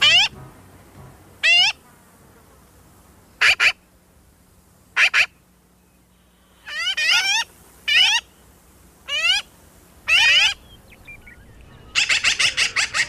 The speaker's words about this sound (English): despite what you remember in the Heckle and Jekyll cartoons, the black-billed magpie actually sounds kind of like this